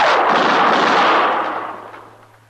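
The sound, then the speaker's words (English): A single gunshot from a Western radio drama, fired in an alley: one loud, full-bodied blast that rings on and fades away over about two seconds, with a faint low hum continuing underneath. “He's in that alley, Mr. Dillon. I seen his gun flash. Don't shoot, Chester.”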